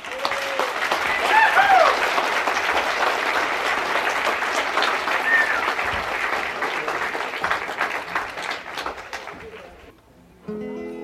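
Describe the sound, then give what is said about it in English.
Audience applause welcoming folk singer and guitarist Doc Watson onto a show: dense, steady clapping that holds for about ten seconds before tapering off at the end. “Let's really get behind him and listen to him sing close. Give him a nice hand, Doc Watson.”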